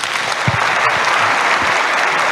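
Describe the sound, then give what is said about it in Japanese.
Audience applause fills a hall, a dense, loud and steady wash of many clapping hands that holds at an even level from start to finish. “会場の皆様、今一度大きな拍手をお願いいたします。”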